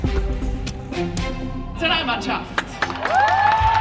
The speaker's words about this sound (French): Une ovation aujourd'hui pour le retour au pays de la Nati à Zurich.